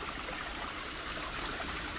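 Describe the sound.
Soft, steady rushing and trickling of creek water flowing, continuous and even throughout with no voices.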